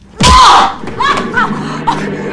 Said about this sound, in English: He slaps her hard on the face.